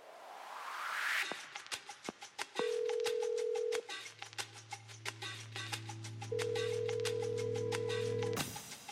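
Call tones play as a telephone number is dialed: two long steady mid-pitched tones separated by a gap, with a low hum underneath and a run of sharp ticking throughout.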